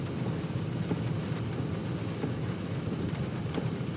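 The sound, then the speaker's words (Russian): Heavy rain pours down in a steady, dense hiss with no pauses, loud and even throughout. “Идет сильный дождь.”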